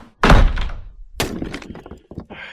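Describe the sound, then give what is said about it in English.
An armful of firewood dropped: a heavy thunk, then a second crash a moment later, followed by several smaller knocking clatters as the pieces settle. “I need to drop this wood.”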